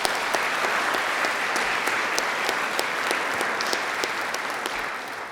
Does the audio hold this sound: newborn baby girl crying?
no